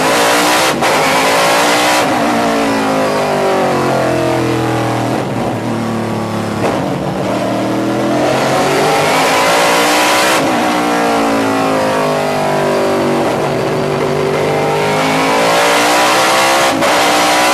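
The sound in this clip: Loud car engine accelerating and taking a corner: the engine note climbs in pitch, drops back as gears shift, then climbs again, repeating several times with no talk over it.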